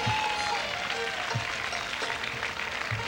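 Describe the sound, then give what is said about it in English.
Audience applause welcomes a singer at a barbecue event, a steady wash of clapping that stays at an even level through the whole stretch. “And let's give him a nice hand. He's going to come out and sing for you tonight. Come on, make him welcome here.”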